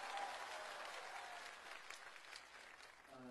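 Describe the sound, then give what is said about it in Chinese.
Audience applause for two teachers: a steady, even wash of many hands clapping, sustained throughout without a break and fairly faint. “掌声送给两位老师。”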